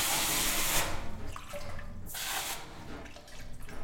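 Water runs from a tap into a sink as a loud, steady rushing hiss that surges at the start and again midway, then keeps flowing without a break.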